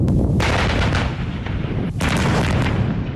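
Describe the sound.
Artillery fire during an army brigade's live-fire strike on a target area rolls as a heavy, continuous booming roar. A couple of sharper reports break through the sustained low rumble.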